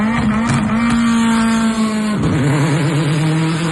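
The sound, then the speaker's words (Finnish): Rallycross car engine revving: a loud, continuous high-revving buzz holds steady, then dips sharply and settles into a lower, rougher drone. “sehän on sitten yksi hienoimpia ääniä ja tätä herkkua on luvassa Pesämäen rallycross-radalla lauantaina 22.8. kello 11 alkaen, kun rallycrossin SM-sarja saapuu Honkajoelle”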